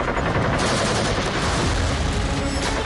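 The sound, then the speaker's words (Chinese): A machine gun fires from a bunker at boats crossing a river at night. The sound is a loud, dense, unbroken volley of rapid shots, sustained throughout. “板子机上暗堡里的机枪疯狂扫射，子弹像暴雨一样倾泻而下”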